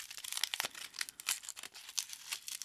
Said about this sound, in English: These are like little gifts. They come wrapped. I guess so does any fruit with a peel. But this is like, sounds like wrapping paper. Let's see. Let's really try to pull notes from this gooseberry.